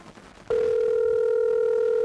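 A telephone dial tone comes on abruptly after a moment of low background noise, a loud, steady, unbroken hum holding one pitch to the end, with no keypad tones heard.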